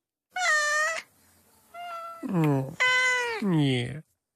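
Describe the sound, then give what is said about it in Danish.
Several meows from a cat in a row of short, tonal, somewhat wavering cries with brief gaps. The later meows are louder and fuller than the first. “Nå, lille mis. Ja, det var bare en lille mis.”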